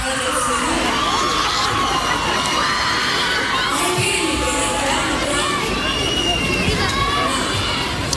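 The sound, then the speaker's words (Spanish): Festival crowd at the Fiesta del Mimbre (Expo Mimbre 2026) in Chimbarongo during a live show: a loud, unbroken wall of cheering, whooping and shouting voices. “Estamos en Chimbarongo, en vivo y en directo. Estamos en la ruta de los festivales. Ya casi 40 minutos de show. Y con un ambiente maravilloso. Escuchen el ruido ambiental.”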